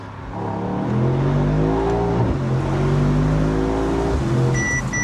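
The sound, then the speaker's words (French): A V8 car with a nine-speed automatic multi-disc-clutch gearbox accelerates hard. Its loud engine roar climbs in pitch, drops briefly at a gear change, then climbs again before another shift near the end. “Oh, oh, oh, ça marche. Il y a des performances. Oh là là là là, ça accélère très très fort, ça tient la route.”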